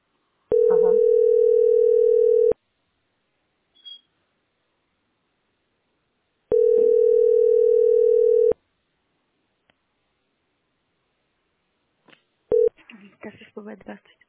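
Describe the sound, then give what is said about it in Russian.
Telephone line tone while someone tries to get through on a call: two long, steady mid-pitched beeps of about two seconds each, separated by silence with faint clicks, followed by a voice answering. “Нет, я жду, пытаюсь дозвониться.”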